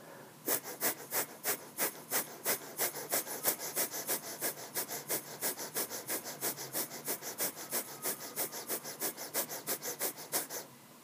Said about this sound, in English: Here's an example of how fast you breathe when you do the breath of fire.